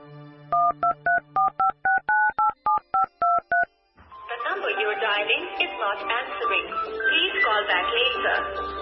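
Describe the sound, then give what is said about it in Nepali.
Touch-tone keypad beeps as someone dials a number received in a message: a quick, even run of about a dozen dual-tone beeps, then voices and other busier sound take over. “अघि त्यो मेसेजमा आएको नम्बरमा phone गर त”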